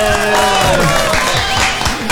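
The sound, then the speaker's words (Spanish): Applause for the godmother at a family celebration, steady clapping from a gathered crowd throughout, with some faint voices beneath. “Un aplauso para la madrina para que no le dé vergüenza esa.”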